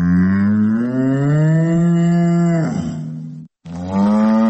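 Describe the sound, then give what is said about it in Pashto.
Cattle moo loudly. Cows being herded by a grazing robot give one long, low, drawn-out moo, and after a very brief silence another moo begins. “په هغې ویډیو کې چې رسنیو خپره کړې ده، روبوټ له شا غواوې مخکې روانې دي”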